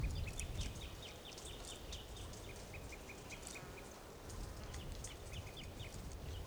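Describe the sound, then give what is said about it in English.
Birds calling and chirping: many quick, high chirps and short call phrases repeat over a faint, steady background hiss. “birds are calling and chirping nearby.”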